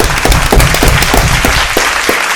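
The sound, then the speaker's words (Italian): Audience applause greets a returning guest on an Italian television show: brief, dense clapping with evenly spaced sharper bursts, loud and continuous throughout. “un applauso a Roberto”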